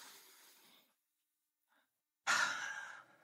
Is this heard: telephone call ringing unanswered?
no